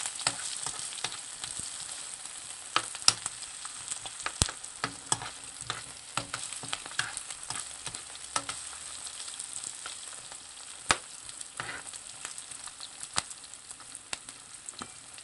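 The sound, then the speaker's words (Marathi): Onion sautéing in a pan over a low to medium flame gives a steady, even sizzle. Many small pops and crackles are scattered throughout, with no voices. “कांदा परतून घेऊ। Flame low to medium वर ठेवायची आहे।”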